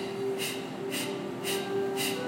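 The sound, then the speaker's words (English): Four forceful exhales, pushed out through the nose or mouth during an energising breathing exercise, come in a steady, even rhythm of sharp breathy bursts over a low, constant hum. “The inhale, you fill the belly up. And the exhale is forceful, like”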